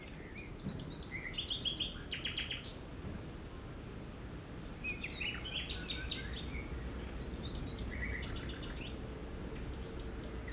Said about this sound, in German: Die Vögel singen.